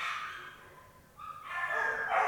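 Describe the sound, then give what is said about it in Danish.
Dogs at a kennel whining and howling, a thin wavering cry that grows louder about halfway through and holds to the end, with no voices over it. “Ej, nu hyler de derinde. Nej. Nå, men det skal jo ikke komme radiolytterne til last. At der er nogle hunde, der har det dårligt.”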